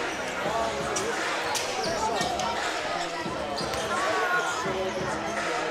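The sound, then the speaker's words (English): A basketball bounces again and again as kids try to dunk on a newly installed net. The thuds recur steadily through constant background voices and crowd noise. “A bunch of these Interlake kids are trying to dunk.”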